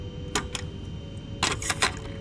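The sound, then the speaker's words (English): Mechanical clicks as a fresh tape is loaded into a tape recorder: two sharp snaps, a pause, then a quicker cluster of several clacks over a steady low hum. “Time for a fresh tape.”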